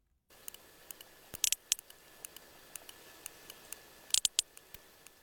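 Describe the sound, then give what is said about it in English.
Sperm whale clicks recorded in the eastern Mediterranean: a faint, steady series of sharp, dry clicks at a brisk pace, with a few louder clustered bursts standing out. “Now that's the sound of a sperm whale from the eastern Mediterranean.”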